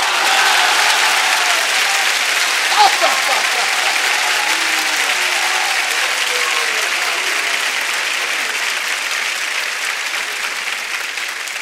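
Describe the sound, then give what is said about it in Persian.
Audience clapping hands together during a devotional chant praising Imam Hasan, steady continuous clapping that holds at an even level while a voice sings over it, easing slightly toward the end. “حالا شما این دستاتو میزنی ببینم منم میتونم یا نه”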